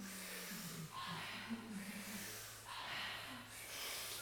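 Forceful breaths drawn in through the mouth, each a loud rushing inhale followed by a softer, gentler exhale, repeating in a steady rhythm.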